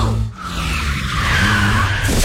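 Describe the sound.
Car tyres skidding on worn, low-tread rubber: a loud, sustained screech over a heavy low rumble, holding steady for about two seconds with a brief dip near the start.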